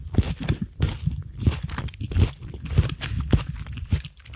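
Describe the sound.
Rice cakes topped with tomato paste being crunched and chewed. Loud, close bites come in quick succession, with many sharp crisp crackles and softer chewing between them.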